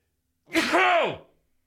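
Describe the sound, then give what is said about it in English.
A single loud human sneeze, heard alone. It is voiced, with a tone that rises and then falls before trailing off quickly. “Hang on, I got to sneeze.”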